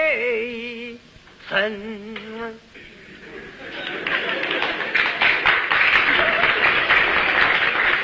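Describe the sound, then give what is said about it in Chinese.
Audience applause at a Beijing stage comedy show comes in after a sung line from a performer, swelling quickly into loud, dense clapping that holds steady until the end. “那鼓掌的人不多呀。鼓掌的人都是南方人。”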